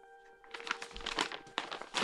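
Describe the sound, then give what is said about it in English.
A bulky hand-printed paper envelope is handled at home in Toronto, giving quiet, irregular rustles and crinkles in short bursts. “I'm sitting here in my home in Toronto with an envelope I received from Jim Brown”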